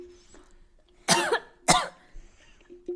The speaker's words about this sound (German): Ich habe mich an meiner Spucke verschluckt.